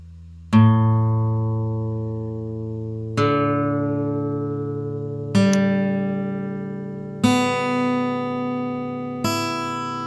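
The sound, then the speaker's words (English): Five strummed chords on an out-of-tune right-handed guitar left unplayed for two years, each ringing out and slowly decaying before the next arrives at roughly even intervals, with no talk. “that is very, very out of tune. It has been 2 years since the guitar has been played, so it only makes sense for it to be out of tune.”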